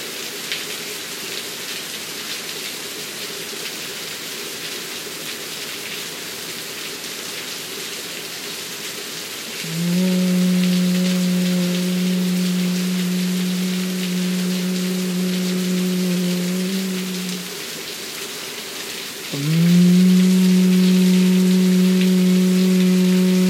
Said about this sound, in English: Let the rain wash you. Let the rain bless you.